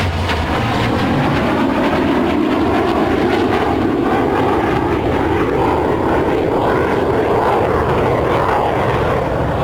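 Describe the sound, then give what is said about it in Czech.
Loud, steady jet roar of a Boeing 737-8 MAX airliner in flight, a broad rumbling engine noise that holds level for the whole stretch with no voices over it. “už došlo k tomu oddělení a Boeing nám míří směrem na jižní navigaci”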